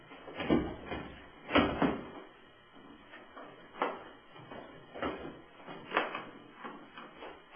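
A worn-out, faulty briefcase being forced open, several faint clunks, clacks and rattles of latches and lid coming in uneven bursts.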